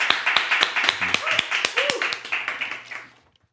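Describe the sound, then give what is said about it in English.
Audience applause welcoming a pastor to the stage at a church service: many sharp, distinct claps in a fairly even rhythm, with a brief voice among them, tapering off into quiet near the end. “Let's give him a big hand as we welcome to the stage today.”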